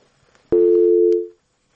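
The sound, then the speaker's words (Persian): A telephone busy signal follows a radio call-in caller's disconnection: a faint click, then one loud, steady, mid-pitched tone held for just under a second before it cuts off into silence. “بله، یک تماس قطع شد. به هر حال می رویم به شنونده دیگر ما.”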